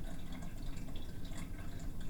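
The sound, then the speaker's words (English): Water splashes steadily into a cat's water bowl, a cottage cheese container, as it is filled. The faint, continuous trickle holds an even level with no talk over it. “that we use as a water bowl. I'm filling it up with kitty water.”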